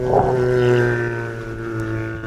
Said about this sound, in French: Alors vous aurez peut-être reconnu la fameuse baleine à bosse. C'est un chant de mâle en pleine migration.